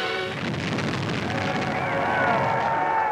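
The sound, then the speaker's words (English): A sustained, rumbling roar from the initial demolition blast clearing old houses for a housing project, set off by the Secretary of the Interior; the broad noise stays loud and fairly even throughout, without a distinct single crack. “Harold Ickes, then Secretary of the Interior, personally sets off the initial blast.”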